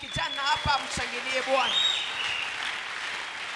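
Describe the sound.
A church audience at a youth-month service acclaiming the Lord: a few short vocal shouts open, then broad clapping and cheering swells and carries on steadily to the end.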